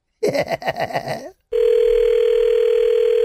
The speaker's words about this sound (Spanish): Vamos a marcarle atrás.